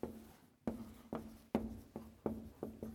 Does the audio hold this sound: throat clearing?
no